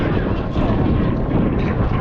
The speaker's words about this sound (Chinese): 另外一个在翼尖上有吊舱的作战飞机歼十六 D 电磁战飞机，放起落架了，它要降落。